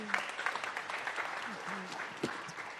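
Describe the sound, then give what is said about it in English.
Congregation applause welcoming a speaker at a church service, faint, light clapping from many hands with some voices mixed in. “So let's put our hands to welcome our dear sister”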